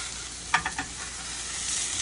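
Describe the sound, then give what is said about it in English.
Spicy sausage meatballs browning and sizzling in a pan, cooking for a gnocchi dish. A steady, bright frying hiss runs throughout, with a few quick scraping clicks of stirring near the start. “So while this is going, we'll get this browning here like that. So you're gonna make this little meatball.”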